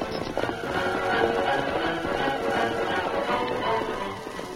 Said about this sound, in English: As the Lone Ranger and Tonto urged Silver and Skull to their greatest speed